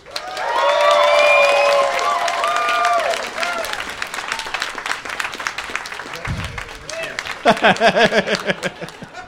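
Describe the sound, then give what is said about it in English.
An audience applauds and cheers for a guest at a live panel show in Minnesota: loud, dense clapping with whoops for the first few seconds, then continuing more thinly with scattered laughter and a voice near the end. “Please put your hands together, go crazy for John Moe.”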